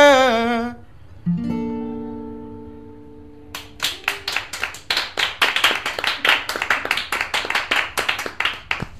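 Applause in a studio follows a few sustained musical tones: rapid, uneven hand claps begin partway through and keep on to the end without voices.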